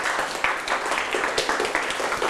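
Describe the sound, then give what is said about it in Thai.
Students in a classroom clap for a classmate who finished a task: a short burst of many hands clapping unevenly, with scattered sharper claps standing out above a dense, moderately loud patter. “ข้อ1เสร็จเรียบร้อยแล้วปรบมือให้เพื่อนหน่อยครับ”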